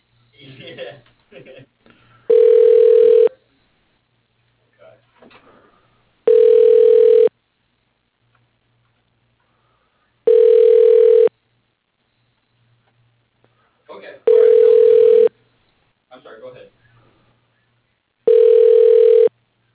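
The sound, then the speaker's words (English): Telephone ringing tone heard while a call is transferred: five long, steady, mid-pitched tone bursts of about a second each, repeating at a regular interval with fainter sounds in the gaps between them. “Transferring call. Please hold.”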